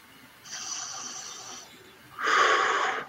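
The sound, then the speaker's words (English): Heavy, breathy air is drawn in and pushed out during a breathing exercise of long inhales and short exhales. Two forceful, wheezy breaths are heard, each about a second long, with the second louder and rougher than the first. “you inhale longer, exhale short.”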